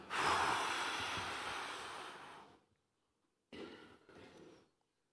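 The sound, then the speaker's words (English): A group of people breathing deeply together: a long, loud rush of breath lasting over two seconds, then a pause and two shorter breaths, with no talking. “Let's all take a massive gulp of breath in. The biggest breath that you can breathe in. Hold it. And then breathe out.”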